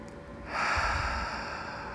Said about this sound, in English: So let's breathe nice and deeply.